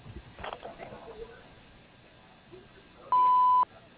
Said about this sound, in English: You may begin speaking at the sound of the tone.